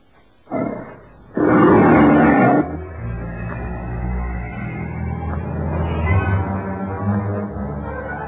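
Big cats roar, a leopard, a tiger and a lion: a short loud burst, then a longer, louder roar, followed by a lower, continuous growling rumble that swells slightly toward the end.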